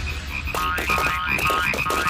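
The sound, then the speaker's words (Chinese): Frogs croak from a pond in a steady, dense chorus of many overlapping calls. The croaking is continuous and fairly loud throughout, with rhythmic pulsing calls and no voices. “那些小青蛙都从池塘里跳出来了，我们最好去看一下。”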